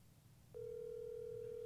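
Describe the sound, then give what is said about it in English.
Ringing on an outgoing telephone call: after half a second of near silence, a faint, steady electronic tone starts abruptly and holds unbroken to the end. “Ooh, it's ringing.”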